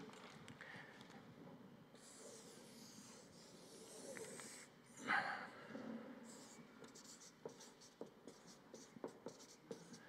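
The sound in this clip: A pen writing by hand in a run of faint scratching strokes with short pauses, then a few sharper scrapes and taps near the end.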